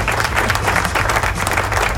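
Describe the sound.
Dense, steady applause and clapping from a crowd, greeting the opening of a rock program from San Juan, Puerto Rico. It stays loud and even throughout, with no voices.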